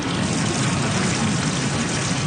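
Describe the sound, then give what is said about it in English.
Water trickles and washes in a steady, continuous rush. The hiss stays even throughout without pauses or separate splashes. “And over here we've got some water.”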